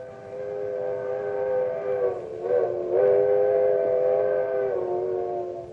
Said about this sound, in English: That's a sound you may never have heard before. One of the most mournful, lonesome, and yet friendly sounds in the whole world. It's a locomotive whistle. The old-fashioned kind that was part of a coal-burning steam engine.